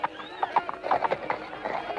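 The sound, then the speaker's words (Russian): Horse hooves stamp and clop as a Cossack's horse fidgets on the ground. Many uneven hoof beats form a restless, irregular rhythm throughout. “Что лошадью топчешься-то? Становись в стремя.”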